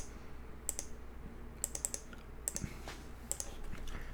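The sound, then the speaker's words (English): Faint keystrokes on a computer keyboard, coming as sparse, irregular clicks in small clusters over a low, steady background hiss. “I'm about to type it right now.”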